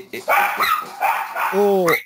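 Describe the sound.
Dogs barking, several quick barks and yelps in an uneven rhythm, with a drawn-out whining cry near the end.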